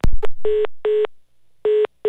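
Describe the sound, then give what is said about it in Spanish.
Short, steady telephone beeps repeat on a phone line after a call is cut off, following a brief click at the start. The tones are loud and evenly pitched, with uneven gaps between them. “Se le cortó la línea, no terminó la idea”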